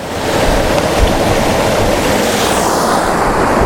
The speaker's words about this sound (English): The wind is back.